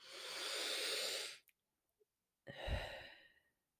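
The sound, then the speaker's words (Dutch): One deep breath during a grounding meditation: a long, airy hissing inhale, a brief pause, then a slower, softer exhale that trails away. Quiet, with no voices. “Ik adem een paar keer heel diep in en uit.”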